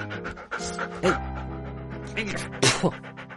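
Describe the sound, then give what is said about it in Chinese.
A dog pants while being bathed; it loves water and keeps shaking itself. Rapid, breathy panting runs throughout, with a few louder, sharper bursts and faint whimper-like tones. “因为陆小刀太喜欢水了，一见水就撒欢，且动不动就猛摇身子甩水。孟昭还没给狗洗完澡”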